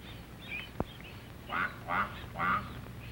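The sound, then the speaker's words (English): A mother duck quacking to her ducklings gives three distinct, evenly spaced calls, after a single sharp click earlier on, against a quiet background. “This duckling will get lost, but he hears his mother call and runs to catch up with her.”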